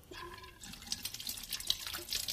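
Water running from a tap as someone washes their face at a sink, a soft continuous stream with light splashes and drips.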